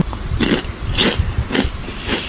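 Chewing a crunchy milk-flavoured snack, loud brittle crunches repeating in a steady rhythm roughly every half second, close and clear with no talking.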